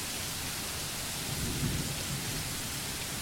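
Rain and thunderstorm ambience playing during a fantasy tabletop role-playing session: a steady, heavy hiss of rain, with a soft, low thunder rumble swelling briefly midway.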